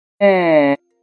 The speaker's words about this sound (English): The sound you just heard was produced from a 3D-printed vocal tract and electronic larynx.